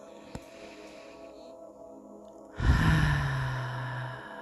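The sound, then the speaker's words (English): A deep breath, in through the nose and out through the mouth, during a guided breathing exercise. A quiet stretch gives way to one long, breathy exhale that starts strong and slowly fades like a sigh. “I want you to take 9 deep breaths with me. In through your nose, out through your mouth.”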